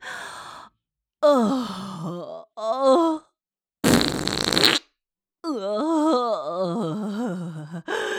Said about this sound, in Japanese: またおなら出ちゃった。